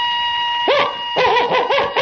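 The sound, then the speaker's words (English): A person imitates a dog with voiced barks: a single bark, then after a pause a quick run of several more. The barks are loud over a steady electrical hum. “If I told you to bark like a dog,”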